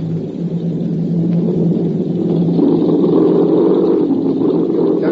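Propeller aircraft engines drone during a forced landing with the wheels down, a loud, steady, continuous rumble with a low hum that thickens slightly toward the end.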